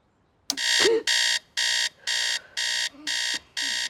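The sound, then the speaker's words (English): A radio alarm clock goes off at dawn with harsh electronic buzzing in seven evenly spaced pulses. The first pulse is slightly longer and the last is cut off, all sounding loud against near silence. “She turns off the alarm.”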